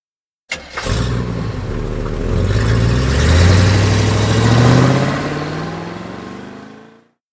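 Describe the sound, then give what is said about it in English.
A Jeep engine cranks and catches abruptly, then settles into a steady running drone whose pitch climbs as it pulls away and accelerates, before the sound gradually fades out. “Bob is in the Jeep with the box of paintings. They all get in the Jeep and Max drives to the desert.”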